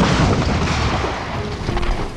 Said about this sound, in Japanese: 主砲発射準備。仰角45度、距離400メートル。王子、発射の命令を。 撃て。